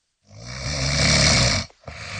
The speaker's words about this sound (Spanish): ¿Cansado de dormir chueco por dar vueltas o ronquidos y una mala noche?